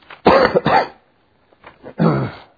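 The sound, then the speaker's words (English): A lingering cough left over from the past week comes as a few harsh, throaty bursts and throat-clearing sounds, split by a short silence in the middle. “Still got a little bit of a cough, kind of lingering from the last week, but it's way better than it was, I tell you.”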